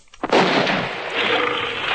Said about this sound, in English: Gun! I will fire!